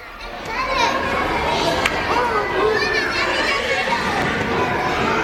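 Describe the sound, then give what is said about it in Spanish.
Children play in a schoolyard, a dense, lively mix of high chattering voices, shouts and calls that overlap continuously at a steady level throughout. “Le pusieron un sonido de juegos en el patio”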